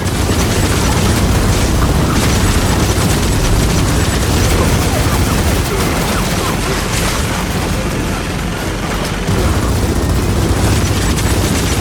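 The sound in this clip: Rockets exploding in a Gears of War 4 video game cutscene: a dense, loud, continuous wall of booms and rumbling blasts that barely lets up across the whole stretch.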